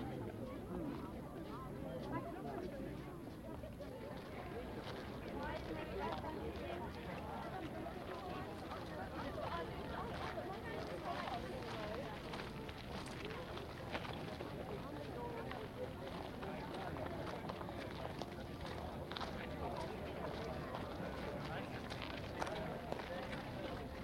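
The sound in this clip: Footsteps of a group walking on to the next stop of a tour in the Treppenstraße make a steady shuffling patter under murmuring voices throughout.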